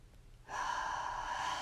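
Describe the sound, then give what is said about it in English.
A deep breath in during a children's mindfulness meditation: after a brief quiet moment, a steady, airy inhale starts and holds at an even level to the end, with no talking. “Take a deep breath in,”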